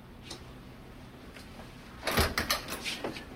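The door to a small room opens: after a quiet stretch with a few faint ticks comes a short, clustered burst of clicks and rattles from the latch and door.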